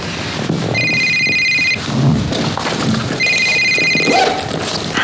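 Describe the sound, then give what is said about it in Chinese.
A telephone rings during a business meeting: two ringing bursts of about a second each, separated by a gap, over a loud, dense background. “不好意思，我接个电话。”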